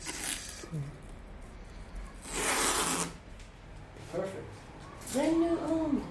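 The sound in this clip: Masking tape is torn and pressed onto a musical instrument to mark a scale for later felt-pen notes. One long, loud ripping burst stands out, with shorter tearing and sticking sounds and people talking around it.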